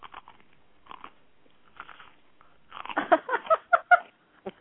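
Someone eating and chewing food, heard alone: sparse, soft crunching bites at first, then a denser run of louder crunchy chews near the end after a short pause.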